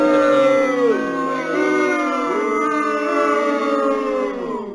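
Audio drop opening a trivia segment: a drawn-out, wavering howl-like vocal tone with crowd-like noise underneath, loud and sustained for the whole stretch before cutting off.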